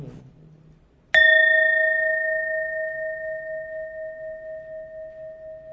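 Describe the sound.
A bell is struck once during a Buddhist chant. It gives a clear, bright metallic ring with a long, sustained decay that pulses slowly as it fades, after a faint low murmur.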